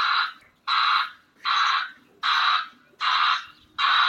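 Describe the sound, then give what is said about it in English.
Safety alert of an Amazon delivery van backing up: a bright, buzzy electronic tone pulses in a steady rhythm, repeating several times at even intervals with short gaps between. “That's the safety alert sound of an Amazon van backing up.”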